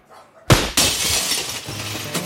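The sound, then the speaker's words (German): A kitchen window pane shattering into pieces, a loud crash quickly followed by a second burst, then a sustained spray of tinkling glass shards with another small clink near the end. “Genau in diesem Moment zerbarst die Scheibe des Küchenfensters in tausend Stücke. Überall Glassplitter.”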